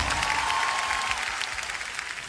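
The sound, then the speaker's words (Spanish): Applause from an audience at a religious gathering: steady, dense clapping that holds at an even level from start to finish. “Un aplauso para Jesús.”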